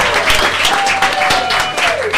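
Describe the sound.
A live studio audience applauds at a first-time taping, a loud, dense and unbroken wash of clapping with a thin steady whistling tone running through it.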